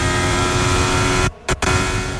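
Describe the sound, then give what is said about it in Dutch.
Onboard engine sound of Lewis Hamilton's Formula 1 car at Eau Rouge: a loud, steady high-pitched engine howl briefly cuts out twice in quick succession as he downshifts one gear, then resumes at full strength. “Interessante dit. Qua onboordgeluid. Even luisteren. Lewis Hamilton. Schakelt ook in Eau Rouge wat één keer terug.”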